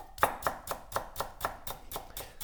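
A dull knife chops food on a cutting board with ten sharp, even knocks at a steady pace of about four per second.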